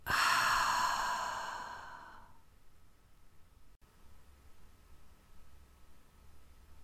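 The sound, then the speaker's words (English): A long, breathy exhale during a guided breathing exercise, loud at first and trailing off over about two seconds into quiet hiss. “Breathe in and exhale out.”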